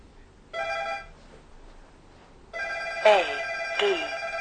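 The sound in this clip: A phone ringtone sounds for an incoming call as harmonic electronic tones in two bursts, a short one followed by a longer one, with a few sliding pitch sweeps layered over the second burst.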